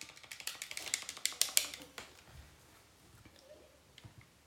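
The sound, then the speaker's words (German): Computer keyboard keys pressed rapidly during a Roblox game, a fast burst of many sharp clicks over the first two seconds, followed by a few scattered, quieter taps. “Kannst du schneller E drücken oder ich schneller Y?”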